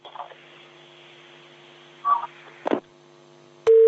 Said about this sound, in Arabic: انقطع الاتصال